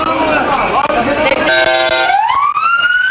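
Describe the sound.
Ambulance siren wailing in the aftermath of a bombing at an airport, a loud harmonic tone that enters midway through a dense, noisy mix and then climbs steadily in pitch toward the end.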